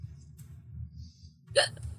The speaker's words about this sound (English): Except hiccups.